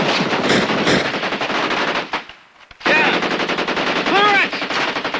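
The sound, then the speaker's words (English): Machine gun and rifle fire in a battle between German soldiers and American GIs near a minefield: dense, rapid, loud bursts of shots that break off briefly midway, then resume just as hard. “Two German soldiers lie on their bellies and fire at Mitchell and Joe.”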